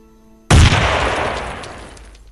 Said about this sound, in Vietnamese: Lựu đạn nổ tung giữa không trung, như đóa hoa khói nở rộ ở trên bầu trời.